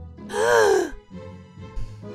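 A person lets out a sharp, theatrical voiced gasp during a murder-mystery party game. The short, loud burst is followed by a low, quieter murmur.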